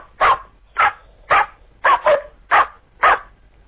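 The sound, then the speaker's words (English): A human voice imitating a terrier barking: seven sharp, yappy barks in a fairly even rhythm, with two of them falling close together in the middle, loud and clear with no other sound. “Let's have a terrier. A terrier? Yeah.”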